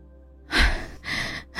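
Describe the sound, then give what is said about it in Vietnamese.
Heavy, exhausted panting from a person worn out and bent over with hands on thighs: three loud, harsh, airy breaths in quick succession, each a rough gust of air with no talking. “Hà Anh cùng với một cô bạn tên là Vi, cả hai đang thở hì hục vì mệt. Hà Anh lúc này gặp người, chống hai tay vào đùi, thở hổn hển nói”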